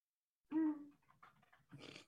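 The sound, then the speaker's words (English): A dog growls briefly, a short, low throaty rumble that quickly fades into faint breathy snuffles, then a brief noisy burst; quiet overall. “That made my dog growl.”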